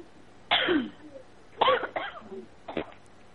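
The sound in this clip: Coughing over a phone line: a few harsh, thin-sounding coughs and throat-clearing bursts separated by short pauses, moderately loud, with no talk.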